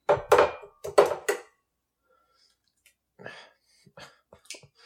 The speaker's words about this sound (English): I can break my eggs.